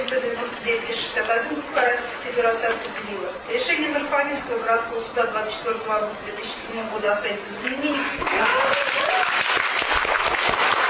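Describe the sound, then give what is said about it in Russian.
Residents cheer and applaud a Moscow Regional Court ruling on their building, after more than five years of suing to prove their ownership. Shouting voices ride over continuous clapping, which swells louder toward the end. “решение Мособлсуда они встретили радостными криками и аплодисментами.”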